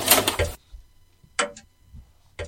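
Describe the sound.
A videotape is loaded and starts to play: a short burst of mechanical whirring comes first, followed by a few sharp, isolated clicks separated by near silence.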